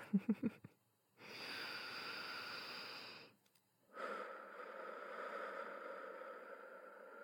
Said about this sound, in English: Okay, deep breath.